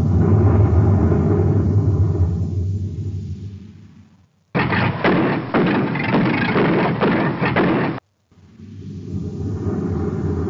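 Loud roaring rumble of a spaceship blasting off for a moon, steady and heavy, then cut by a brief silence into a harsher, crackling burst of roar. Another short gap follows before the deep rumble returns and holds to the end.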